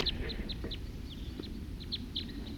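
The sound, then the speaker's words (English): Wild birds give many short, high chirps in an irregular series, faint over a low, steady rumble. “Wild birds.”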